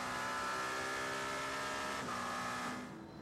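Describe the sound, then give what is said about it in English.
Race car engine accelerating out of the final corner on a qualifying lap, winding up toward a flying lap: a loud, sustained, steady engine tone that holds throughout and eases off slightly at the end. “This is him going for his flying lap now. He's done his build laps. Kobayashi really winding up out the final corner there to head on to his quick lap.”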